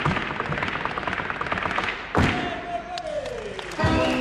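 Bolas swung and cracked against a special parquet floor, giving two sharp, heavy thuds spaced well apart over a steady wash of crowd noise.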